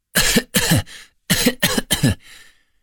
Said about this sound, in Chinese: 子墨又低头掩嘴咳了起来，一副随时都要倒下的样子